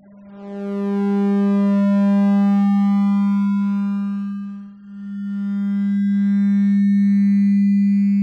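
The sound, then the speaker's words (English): Steady, clean electronic tone from a Vectrex vector display, as the signal draws a line that morphs into a triangle, a hexagon and then a 12-sided polygon. The buzzy, harmonic-rich hum holds one pitch, its overtones shifting, with a brief dip partway through. “this is the sound of a simple line turning into a triangle, and then a hexagon, and then a 12-sided polygon.”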